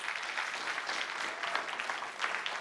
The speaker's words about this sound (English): Give them a warm welcome.